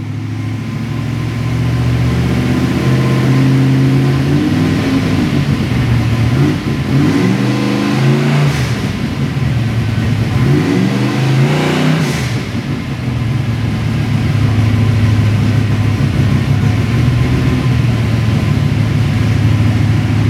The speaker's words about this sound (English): It's going to get loud. People are plugging their ears. He's got it in gear right now. Back tires are turning. He's going to begin the pull right now.